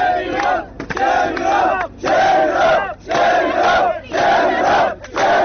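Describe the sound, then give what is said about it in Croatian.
A protest crowd chants rhythmically at the Hungarian border fence with its barbed wire, loud and forceful, repeating the same slogan in short bursts separated by brief pauses. “Na bodljikavu žicu jedna devojka je okačila majicu sa natpisom "Stidi se Evropo". Usledili su aplauz i skandiranje iste poruke.”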